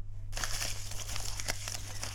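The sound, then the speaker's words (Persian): Papers being gathered up from the floor: continuous crinkling and rustling of paper sheets, fairly loud, over a steady low hum. “این کاغذ ها را کی روی زمین انداخته؟ من انداختم مادر جان، اینال جمعشان میکنم.”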